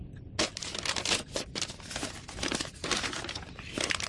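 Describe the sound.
Paper rustles and crinkles as a letter is slid into an envelope, a dense, scratchy crackling that runs almost continuously with a short break partway through.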